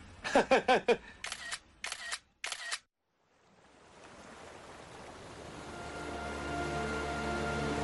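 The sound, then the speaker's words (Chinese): A camera shutter clicks rapidly in several short bursts while taking photos by a bay shore. The clicks are crisp and closely spaced, then stop, and a soft, steady rush of water swells in afterward. “帮我和文仙人合拍一张照片吧。 合拍？怎么个合拍？”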